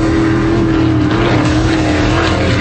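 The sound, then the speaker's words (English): Offshore racing powerboats speed past at over 140 miles an hour during a race off Clearwater Beach, a loud, steady engine roar with a sustained droning tone that holds without a break. “90 race boats, over 140 miles an hour.”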